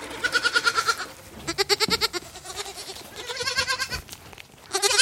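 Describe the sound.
Young goats and lambs bleat in a wooden barn: several loud, trembling, quavering bleats come in separate bursts with short pauses between them, and there is no talking.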